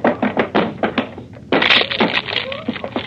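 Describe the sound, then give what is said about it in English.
A locked cabin door aboard a ship being broken down: a rapid series of heavy thuds and knocks, then a louder splintering crash followed by more scattered impacts. “Come. It's locked. Well, break it down.”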